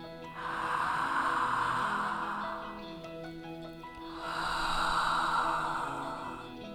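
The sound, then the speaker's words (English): Slow, deep breathing during a guided centering exercise: two long, airy breaths, each swelling and fading over roughly two seconds, soft and steady with no talk. “Use this breath to get centered.”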